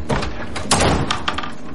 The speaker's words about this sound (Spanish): entra en la casa, cierra la puerta en la cara de William.